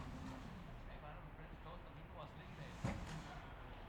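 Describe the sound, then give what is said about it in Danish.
A car door slamming shut outside a hotel late at night: one muffled thud that stands out briefly from a faint, steady low hum. “det er bare nogle bildøre.”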